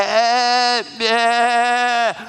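Goat bleating in two long, drawn-out calls with a short gap between them. Each call is loud, nasal and harmonic, holds a steady pitch, then drops away at its end.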